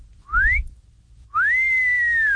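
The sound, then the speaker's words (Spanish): A man's wolf whistle: two clear whistled notes. The first is a short upward sweep; after a pause, the second rises and then holds long and steady, dipping slightly at the end. A low rumble sits under the first note. “el chiflidito para sus ladies, para sus damas.”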